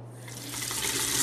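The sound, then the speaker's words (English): Tap water runs into a bathroom basin as someone washes their hands: a steady, hissing stream that swells slightly louder as it goes on. “As Ryan was washing his hands at the bathroom basin”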